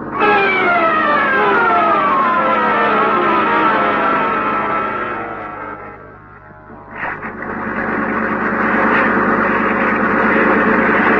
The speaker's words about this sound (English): Didn't you hear anything just then? No, you can't hear anything over this motor. But I can. It's a Coast Guard.